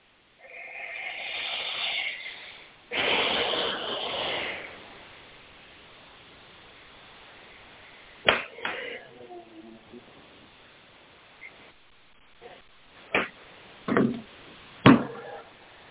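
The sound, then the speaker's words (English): Deep, slow conscious breathing: two long, airy breaths, an inhale then a fuller exhale, followed by near quiet broken by a few soft clicks and brief rustles. “So let's take a few deep, conscious breaths.”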